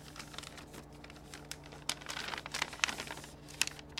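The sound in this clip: Paper crinkling and tearing as an envelope is opened, a quiet run of many short rustles and rips that grows busier toward the end, with no voices.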